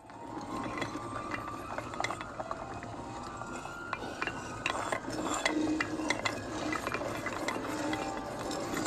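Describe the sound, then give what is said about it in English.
Grinding, ratchet-like mechanical clicking as a magic brick wall slowly separates to open Diagon Alley, a steady dense stream of small clacks and scrapes lasting throughout, with no voices. “The pattern he tapped against the bricks served as a key, which caused the bricks to slowly separate, revealing a small slice of the new world that just opened to Harry.”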